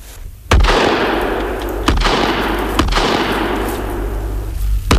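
Rifle shots fired while hunting, four sharp cracking reports spaced unevenly, each trailing into a long rumbling decay, with no voices.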